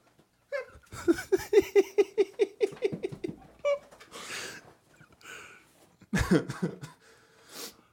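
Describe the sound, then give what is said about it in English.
Coughing from something caught in the throat: a rapid run of short, voiced bursts followed by a few harsher, breathier coughs, moderately loud and separated by brief pauses. “I got a little something caught in my throat.”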